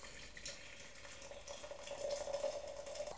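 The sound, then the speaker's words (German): Water poured from a tilted kettle into a teapot holding spoonfuls of tea leaves: a faint, steady trickling stream that grows slightly fuller toward the end, with no voices. “tat vier volle Löffel Tee hinein, den Kessel dann schrägend, um Wasser einfließen zu lassen”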